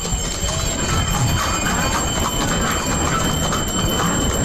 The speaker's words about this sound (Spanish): no sé si lo escucháis, a los cascabeles de los mulos, son dos mulos los que llevan la carreta del Sin Pecado. Y me voy a acercar, los voy a esperar para que se escuche ese sonido.